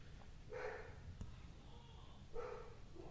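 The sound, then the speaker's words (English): Two faint barks from a dog downstairs, well apart, each a short muffled burst over a steady low background hum. “Dog. That's my dog downstairs.”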